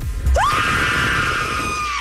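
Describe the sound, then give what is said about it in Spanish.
A single loud scream, the winning entry in a scream contest for a haunted-house attraction at SeaWorld San Diego. The voice slides sharply upward, then holds a high, steady pitch for about two seconds. “Y el grito ganador, porque así lo decidió la mayoría del público de Globo 99.3, es el siguiente.”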